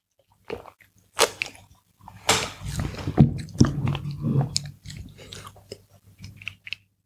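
Sipping a sweet energy drink from a can produces wet mouth sounds, slurps and swallows. The sounds come in irregular clustered bursts with short pauses between them.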